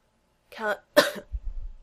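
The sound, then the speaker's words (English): A woman coughs while lying in a hospital room: a short, rough throaty sound, a brief gap, then a sharper harsh cough, with a faint low rumble after it. “She coughs. Not faint, though it still gives her time to think.”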